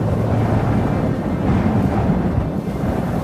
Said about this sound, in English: The wind! It's carried them right over us.